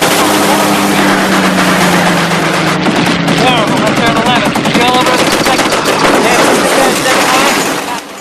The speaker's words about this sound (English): The crew fire at random from their various positions.